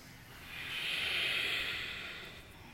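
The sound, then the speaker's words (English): A deep exhale during a yoga exercise: a single soft, airy breath that swells and then fades away over a couple of seconds. “Take a deep breath in. Breathe out.”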